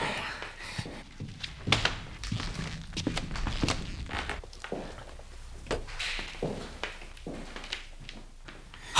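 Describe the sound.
Footsteps lead down a narrow stone staircase into a wine cellar: many irregular steps and soft thuds at a moderate level, with a few heavier knocks among them.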